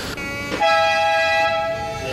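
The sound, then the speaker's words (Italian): A metro train in Genoa, riding an elevated bridge above old tracks on the way from Brin station to Di Negro, sounds a loud, steady, multi-tone horn or chime that begins after a brief low rumble and holds to the end. “la cosa davvero affascinante, forse unica per il progetto Genova, vi fa andare in metropolitana per la prima volta. Stiamo tornando da Brin, dalla stazione di Brin, a Di Negro”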